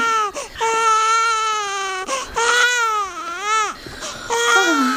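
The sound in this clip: An infant cries in several long, loud wails with wavering pitch and short breaths between them, the cries breaking upward and downward at the ends.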